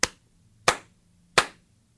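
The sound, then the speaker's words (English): Three sharp, single hand claps, evenly spaced with silence between, made to sync recordings; each one snaps loudly and quickly decays. “Actually, I'm going to do a clap to sync this up.”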